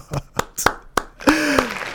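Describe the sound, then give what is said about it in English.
Hands clap six slow, sharp times in a loose, uneven rhythm while a voice sounds out over the last few claps. “I'm applauding SZA because she was on crutches. Crutched up. Crutched up to get up there. And then I'm applauding SZA because. She just deserves a”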